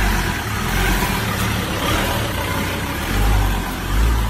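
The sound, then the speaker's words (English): Engine rumble of a white, heavily modified Ford Ranger ute pulling up and driving over a curb, a loud continuous low drone with a couple of slight swells toward the end, no voices. “he pulls up in this white Ranger that's completely tricked out”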